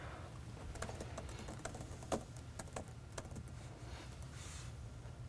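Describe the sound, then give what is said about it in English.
A password is typed on a computer keyboard: faint, scattered keystroke clicks over a steady low hum. “So I just typed my password in.”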